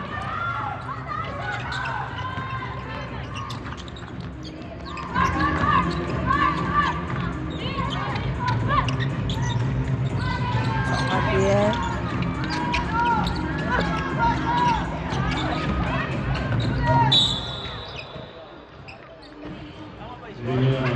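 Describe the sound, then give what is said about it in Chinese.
Basketball dribbling during a game with a Japanese team running a full-court press: repeated rubbery bounces on the court under steady crowd noise and voices. “池田佑真的运球有一个很特别的节奏哦， 就是你要去预测他的什么时候要停球，其实蛮难的。”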